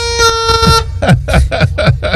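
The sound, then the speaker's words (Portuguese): Horn sound effect: a sustained, bright honking tone, then five short, punchy toots in quick succession, loud and alone. “Toca a corneta aí, toca a corneta aí, toca a corneta.”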